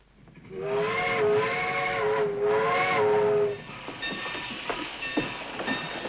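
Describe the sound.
A steam train arrives at a station with a loud, sustained, multi-toned steam whistle lasting about three seconds, dipping briefly midway. The whistle then gives way to steady rumbling, clanking rail and carriage noise.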